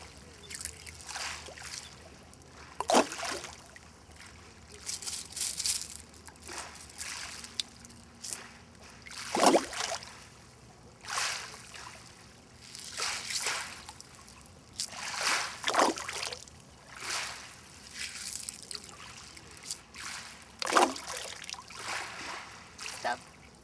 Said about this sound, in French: Écoute les vagues. Quand la vague déferle,